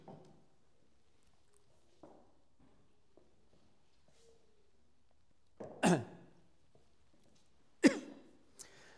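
Someone clears their throat in two loud, harsh, rasping bursts about two seconds apart, then a smaller one. Faint scattered small sounds come before them.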